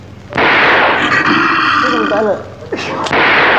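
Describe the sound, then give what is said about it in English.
Gunshots in a horror film scene, fired in a cell holding a werewolf: two sharp bangs, near the start and near the end, over loud, dense, sustained noise. “Jesus, he shot the camera. A wolfman in the cell and he shoots the camera.”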